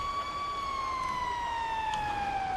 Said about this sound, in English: Okay, this siren is getting kind of annoying.